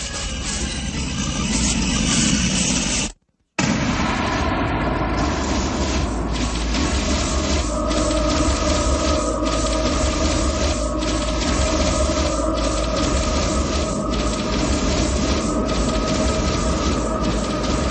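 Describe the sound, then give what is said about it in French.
Soundtrack music from the first Matrix film plays as a dense, loud, droning electronic texture with a steady pulsing beat. It cuts out briefly near the start, then continues unbroken to the end. “Bande originale du premier Matrix, premier volet de la série.”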